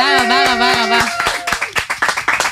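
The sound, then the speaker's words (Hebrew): Audience clapping on an entertainment show, beginning under a sustained voice and then carrying on alone as a brisk run of sharp, fairly loud claps. “כפיים! תודה רבה, רבה, רבה.”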